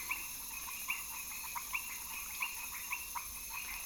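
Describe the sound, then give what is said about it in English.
Frogs and other amphibians call at night, giving many short, faint croaks in an uneven rhythm over a constant high, insect-like hum. “And the second category of species that you hear are the reptiles and amphibians,”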